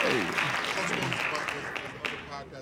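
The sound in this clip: Audience applause, a dense patter of many hands clapping that is loud at first and gradually thins out, with a voice talking over it.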